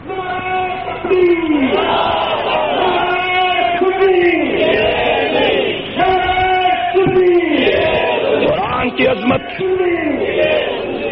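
A crowd at a religious sermon chants slogans in loud unison, each call rising then dropping, repeated in a steady rhythm with hardly a pause between shouts.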